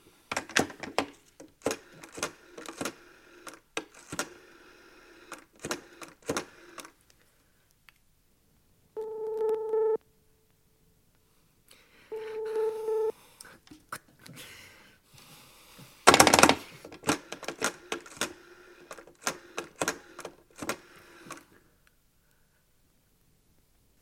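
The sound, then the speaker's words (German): A telephone call being dialed: quick clicks and taps, then two short bursts of a steady electronic line tone, followed by more scattered clicking. No voices are heard. “Ich werde den Gouverneur jetzt anrufen.”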